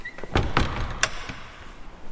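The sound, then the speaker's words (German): A door being closed, heard as a few brief knocks and clattering thuds, fairly faint and with no voices. “Mach die Tür zu. Aber... Mach die Tür zu. Mach die Tür zu. Ja, ja. Nein, von außen. Und bleib davor stehen.”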